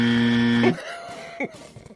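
A game show buzzer gives one loud, steady, harsh buzz lasting under a second, then cuts off abruptly, leaving near quiet with a few faint noises.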